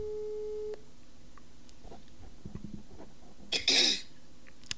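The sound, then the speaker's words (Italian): A telephone ringback tone as an outgoing call is placed: one steady mid-pitched beep lasting under a second, then faint line hiss and a brief burst of noise near the end. “Vediamo se riusciamo a far sentire. Ecco, sto chiamando.”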